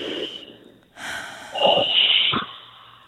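A big, noisy breath drawn in through the nose and mouth, loud and rushing with a snorting edge, swelling in a couple of waves before easing off.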